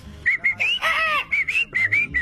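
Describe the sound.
A southern screamer (chajá) bird calling: a rapid series of short, high, whistle-like cries with one longer, louder burst in the middle, separated by brief pauses.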